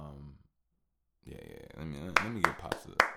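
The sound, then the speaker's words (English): Four soft, sharp hand claps ring out in a quick, slightly uneven sequence over a continuous voice. “let me give Pops a little clap. Hopefully that's not too loud in y'all here.”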